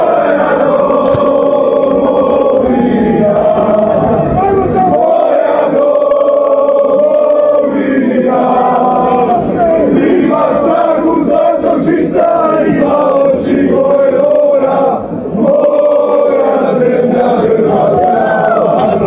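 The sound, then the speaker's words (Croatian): Croatian football fans sing loudly together in Moscow before a football final. A dense chorus of many voices carries a melody without a pause, loud and sustained throughout. “Dario Šarić, vatrene će podržavati u Moskvi gdje je snimljen kako glasno pjeva s ostalim navijačima.”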